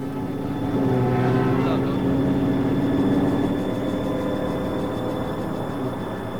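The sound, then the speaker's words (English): A military car's engine drones steadily as it drives away, a low, harmonic hum that swells slightly in the first few seconds and then eases to a lower, continuous rumble through the end. “A military 4x4 pulls up. You missed him! He went over the fence! As the soldiers disperse, Dahlia drives away, with Rudy lying across the back seat.”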